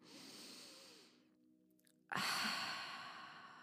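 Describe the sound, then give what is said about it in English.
A deep breath taken during a guided centering exercise: a soft inhale, a quiet pause, then a loud, long exhale that fades out slowly. “So could you take a deep breath here with me?”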